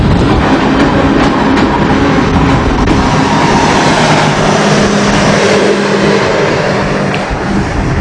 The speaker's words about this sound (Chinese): 列车即将驶入沱沱河站，这里也是距离三江源最近的车站。